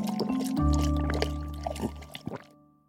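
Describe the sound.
Water gulped from a glass, a continuous wet gurgling and burbling with a few small liquid pops toward the end, heard alone without voices.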